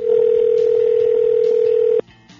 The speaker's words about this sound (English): Yes, it's two rings. He may not answer.